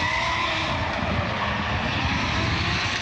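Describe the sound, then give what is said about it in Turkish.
Loud, continuous engine roar from modified race cars cornering sharply amid tire smoke at a motorsport championship, a dense, steady wash of noise with no clear breaks. “Lastik dumanlarının gökyüzünü kapladığı organizasyonda pilotlar keskin virajlarda araçlarını kontrol altında tutmak için kıyasıya mücadele etti.”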